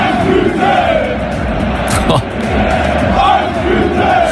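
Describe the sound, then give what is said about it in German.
Dense, loud roar and chanting from 45,000 football fans in the Volksparkstadion during HEBC against BVB, sustained throughout with only a brief dip near the middle. “Der HEBC hat letztendlich doch 0-5 verloren, aber die Stimmung im Stadion vor 45.000 Fans war einfach so krass, hört mal selbst.”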